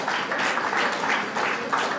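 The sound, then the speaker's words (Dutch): Council members knock on their tables as applause after a motion, making a dense, continuous rattling patter that holds steady throughout without spoken voices. “Inderdaad, dat kloppen we altijd even. Ja, ja, dat kloppen we.”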